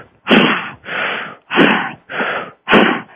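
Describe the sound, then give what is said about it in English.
Five forceful, noisy exhalations from a breathing exercise meant to push fear out of the body. The bursts come in a steady rhythm, each a loud, rough rush of air that stops sharply, with short pauses between them. “maybe you need to stomp around a bit, move your body around, and do this breathing, like”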